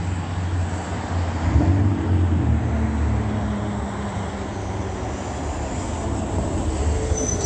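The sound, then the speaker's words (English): A Union Pacific train rumbles past eastbound on Hope Boulevard as a transit bus arrives. The loud, steady roar of rolling rail cars holds throughout, with faint squealing wheel tones above it. “That is Union Pacific crossing path going east on Hope Boulevard as Omnitrans is arriving.”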